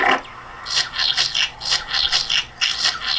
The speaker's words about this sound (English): Okay, now E2 we're gonna play washer. A course. So we're gonna use the ball washer.